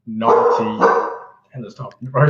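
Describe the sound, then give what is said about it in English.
A dog barks in the background during a conversation, with a few barks mixed under steady talk. “I got the dog barking in the background.”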